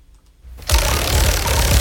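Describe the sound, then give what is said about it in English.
A prize wheel spins into a loud, rapid, rattling run of clicks. The clicking starts abruptly after a quiet moment and keeps going at a steady loudness. “Let's spin the wheel.”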